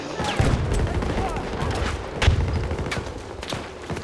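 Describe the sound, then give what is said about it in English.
Gunfire and a rocket blast during a video game shootout, with rapid crackling shots throughout and a heavier low thump about midway. “Shoot a dart over there and I'll rocket it.”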